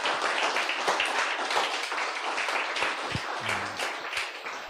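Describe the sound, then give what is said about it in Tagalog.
An audience at a Sunday church service claps for the Lord. The clapping is loud and continuous and stays dense throughout. “So why don't we give the Lord the loudest clap offer that we can give him today?”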